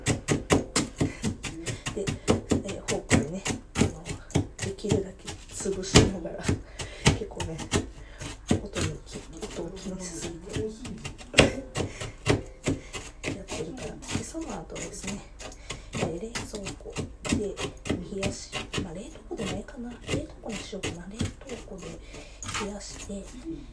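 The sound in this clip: A fork presses and mixes crushed biscuits with butter while making Valentine's chocolates, giving many irregular soft scrapes, clicks and rasps that continue throughout.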